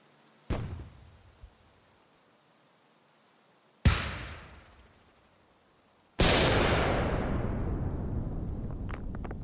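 Grenades explode three times, each louder than the last. The first two are sharp blasts that die away quickly, and the last ends in a long, heavy rumbling tail.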